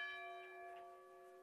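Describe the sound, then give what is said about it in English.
A bell rings to celebrate a touchdown at a high school football game in Elm Creek, giving a faint, sustained metallic tone with steady overtones that slowly fades. “they're ringing the bell in Elm Creek”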